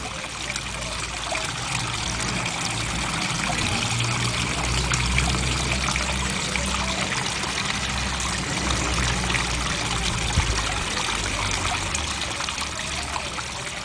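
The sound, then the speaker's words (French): Water trickles steadily, as from a small fountain, in a soft, continuous flow that stays at an even level throughout without pauses. “le bruit qui me fait du bien, je pense que c'est d'entendre de l'eau couler en fait, des petites fontaines, ce genre de choses, c'est apaisant”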